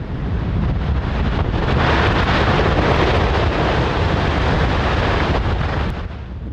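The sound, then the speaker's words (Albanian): Deep, rushing roar of an iceberg breaking apart where the Russell Glacier meets the sea. A loud, continuous rumble holds steady for about six seconds before easing slightly at the end. “Kjo është zhurma një icebergu që po coptohet ndërsa akullnaja Russell takohet me detin.”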